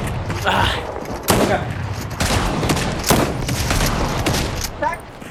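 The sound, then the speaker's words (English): Shotgun fire during a video game fight: several loud, sharp blasts at irregular intervals over a constant rumble of dense game noise. “You can win a shotgun fight. His shotgun missing.”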